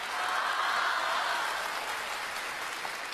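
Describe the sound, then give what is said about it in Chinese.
A crosstalk comedy audience applauds the performers on stage, a thick, continuous roar of clapping that swells early and then eases slightly while staying dense. “谢谢谢谢大家的掌声鼓励，我的心情是非常的高兴。”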